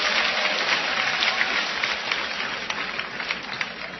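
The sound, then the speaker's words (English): A large crowd in Tiergarten Park, Berlin, cheers and applauds, a dense, steady roar of clapping and shouting that holds throughout. “Well, look at that mob scene there in Tiergarten Park.”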